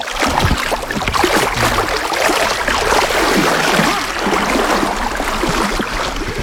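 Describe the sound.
Flowing river water with a noticeable current makes a steady, full rushing sound that stays loud and constant throughout, with no talk.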